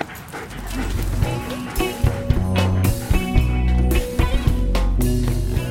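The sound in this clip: A dog pants and gives a few yips as it runs back with a stick, heard over steady background sound with several short, sharp peaks.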